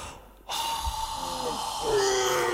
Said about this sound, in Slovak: No, treba mi ešte mocnejšie dýchnuť.